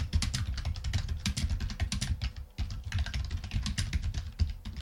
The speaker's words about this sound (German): Ich würde mal sagen, wir schreiben einfach das Wort Sprechen rein. Und die Tabulator-Taste.